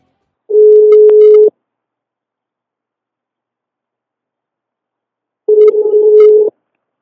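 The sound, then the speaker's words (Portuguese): A telephone rings out on an outgoing call. Two steady, low electronic tones last about a second each and are separated by a long silence, with no voices. “Vou ligar para ele.”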